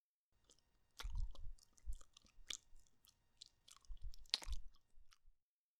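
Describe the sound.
Wet licking and mouth sounds on bare skin, many moist smacks and slurps in two loose clusters with a brief lull between, fairly faint and with no voices.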